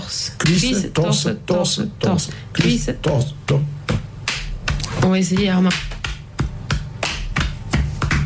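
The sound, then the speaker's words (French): Hands slap on thighs and chest in a steady rhythm, body percussion imitating the beats of threshing flails. Many crisp slaps run continuously while people talk over them. “Donc, tape sur les cuisses, tape sur le torse.”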